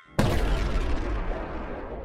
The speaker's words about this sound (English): The lights continue to flicker just before the crystal shatters, emitting a bright light and a large explosion.